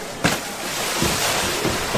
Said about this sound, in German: Jetzt ist sie reingeplumpst, glaube ich.